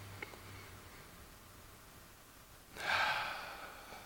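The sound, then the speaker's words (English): One deep, relaxing breath, soft and airy, swells briefly and then fades out over quiet, faint background noise, with no talk. “So I invite you to just take a wonderfully deep, relaxing breath in this moment.”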